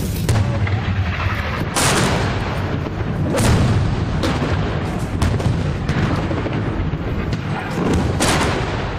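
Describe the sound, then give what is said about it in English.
Mortar shells exploding close by among apartment buildings and a cell tower: several heavy, booming blasts hit in irregular succession over a dense, continuous rumbling roar. No voices. “So these seem to be mortars.”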